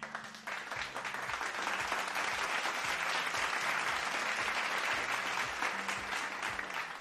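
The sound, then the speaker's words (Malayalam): Hearty applause from a group rewarding quiz participants, a dense, even patter of many hands that holds for about seven seconds, with a faint low tone underneath. “എല്ലാവർക്കും എന്റെ നല്ലൊരു കയ്യടി തരികയാണ്. ഒപ്പം തന്നെ നമ്മുടെ radio Mac ഫാസ്റ്റിന്റെ വക നല്ലൊരു കയ്യടി.”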